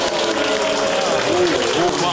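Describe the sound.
Crowd clapping as an audience votes by applause for a politician in a comic live poll, a dense continuous wash of claps with raised, cheering voices mixed through it.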